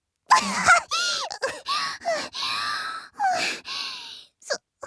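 A panicked run of gasping: many short, voiced inhales one after another with no exhale between them. The gasps are strained and high, with brief gaps.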